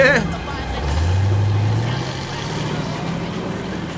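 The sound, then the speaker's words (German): A VW bus drives off from a skate park, its engine giving a low rumble with a short rising whine early on, then settling into a steady, fainter drone. “Fast ein wenig wehmütig sah Peter dem davonfahrenden VW-Bus nach.”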